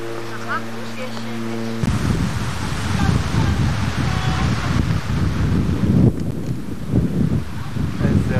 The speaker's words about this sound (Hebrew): איזה רוח.